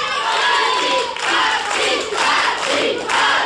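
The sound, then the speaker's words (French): A crowd at a live show in Metz chanting a name in unison: loud, rhythmic shouted swells about once a second, each dipping briefly before the next repetition. “Et un nom que j'entends depuis tout à l'heure, là, que vous scandez, qui fait comment ?”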